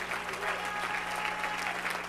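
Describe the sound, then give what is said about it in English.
A church audience claps its hands in praise to Jesus, a dense, steady round of applause that holds at an even, fairly loud level for the whole stretch. “Shout amen. Amen. Give Jesus a great big hand clap of praise.”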